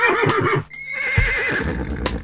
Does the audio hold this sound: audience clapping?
no